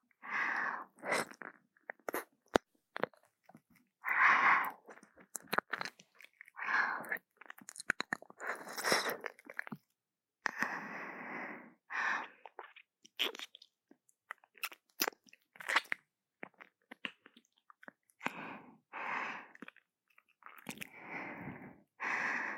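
Wet mouth sounds of nibbling and chewing on an earlobe: many irregular smacks, crunchy bites and soft breaths repeat throughout, with no talk.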